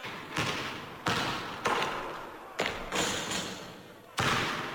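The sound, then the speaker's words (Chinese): A basketball thumps on a court in several dull bounces at uneven intervals. Each impact trails off into a hissy wash of sound. “朱总司令今日理万机，好不容易抽点时间走上球场，蹦蹦跳跳投几个球，大家怎能穷追猛打？”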